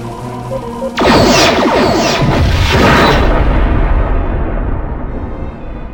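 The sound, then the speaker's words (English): A torpedo explosion destroys a starship: after a short quiet hum, a loud, sudden boom hits and turns into a crackling, rumbling roar that lasts several seconds before slowly fading. “Fire torpedoes as fast as you can load them.”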